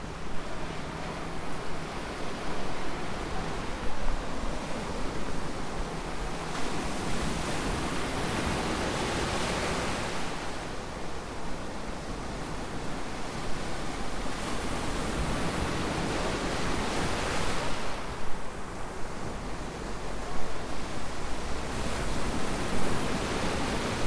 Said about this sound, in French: Je vous propose de reposer vos oreilles avec une ambiance de mer que j'ai moi-même captée lors de nos sorties plage.